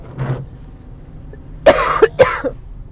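Short coughing from a tickle in the throat: three sharp coughs in quick succession, fairly loud and breathy, with no talk.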